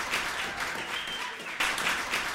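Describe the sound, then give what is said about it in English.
Recorded applause sound effect from an applause machine: a short burst of crowd clapping that jumps louder partway through, then cuts off abruptly. “Folks, we got into a strange feedback loop where this is only playing applause out of this one machine. It's the applause machine now instead of my theme song machine.”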